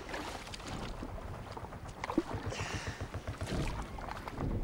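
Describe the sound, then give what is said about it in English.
Oars of a rowboat working through water, with repeated soft splashing strokes over a low, steady wash. The sound is quiet throughout. “He takes up the oars.”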